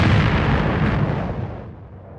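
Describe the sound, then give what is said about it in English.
A loud explosion sound effect mimicking a self-destructing message: a deep, booming burst that rumbles heavily at first and then slowly fades over about two seconds. “And we're right about the time that this message is going to explode.”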